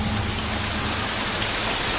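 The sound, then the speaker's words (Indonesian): Heavy rain pours down on the way to a parking area, a dense, steady hiss with a low rumble underneath that stays loud and unbroken throughout, with no voices. “Namun belum sampai ke parkiran, hujan keburu turun deras.”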